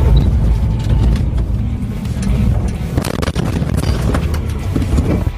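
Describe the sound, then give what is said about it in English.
A ranger vehicle in pursuit roars along with a loud, steady low engine rumble mixed with heavy wind buffeting that continues unbroken throughout. “Ranger vehicle in pursuit.”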